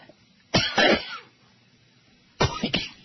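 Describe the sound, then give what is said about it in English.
Coughing in two short, harsh bouts separated by a quiet pause, each a quick cluster of rasping, throat-clearing hacks. “here comes the coughing again.”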